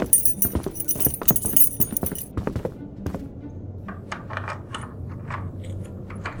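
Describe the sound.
A key rattles and clicks in a door lock, turned twice, a quick run of many sharp metallic clicks and jangles that then give way to a much quieter stretch.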